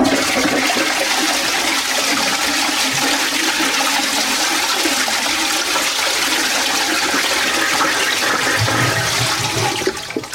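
A toilet flushes with a loud, continuous rush of water that stays steady for about ten seconds and then begins to taper off at the very end, with no voices.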